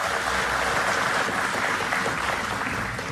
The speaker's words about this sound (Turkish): Alkışlarınız bu kez şefimiz Ahmet Turan Şan için.